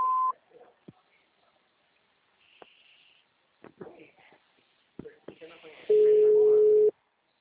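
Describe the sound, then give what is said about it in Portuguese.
Phone menu signal tones: a short high beep opens, a voice speaks in between, and a loud, steady lower beep holds for about a second near the end. “Atendimento digital. Após o sinal, visite o ramal ou aguarde.”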